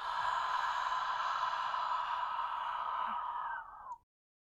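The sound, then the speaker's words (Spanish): A single deep exhale through the mouth, breathed out as if fogging a pane of glass held before the face. It is a steady, soft, breathy hiss lasting about four seconds before cutting off. “Inhala profundo y exhala por la boca como si tu mano fuera un cristal y quisieras empañarlo.”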